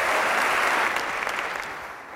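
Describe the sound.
Conference audience applause welcoming a keynote speaker to the stage, a brisk patter of many hands clapping that starts full and fades noticeably toward the end.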